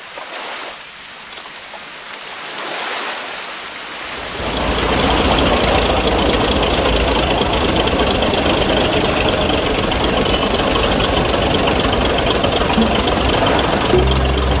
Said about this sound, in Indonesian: Asik kan naik perahu malam-malam?